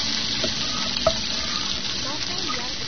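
Food frying in a pan, a steady, low-level sizzling hiss with a few small clicks and ticks scattered through it.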